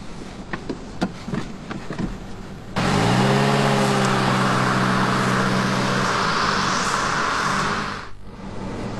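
A car pulls away: the engine swells into a loud, steady roar with a humming drone for about five seconds, then drops off sharply. A few faint clicks and knocks come before it.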